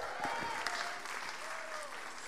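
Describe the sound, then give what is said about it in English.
Audience applause, a steady wash of clapping that carries on evenly throughout, fairly faint, with a voice briefly audible beneath it. “Let's give Jules a round of applause.”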